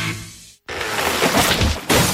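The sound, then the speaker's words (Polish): A tree branch falling onto a car: a loud rush of noise cuts to a brief silence, then a broad, crashing impact that stays loud and surges again near the end. “Konar spadł na auto.”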